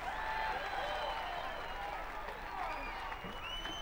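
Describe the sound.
An audience applauds to welcome a blues performer, a fairly faint wash of steady clapping that runs throughout, with voices talking over it.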